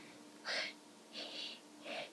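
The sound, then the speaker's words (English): A person imitates a French bulldog's breathing with three short, wheezy, snorting huffs, faint and evenly spaced, with quiet pauses between them. “And then Frenchies breathe like”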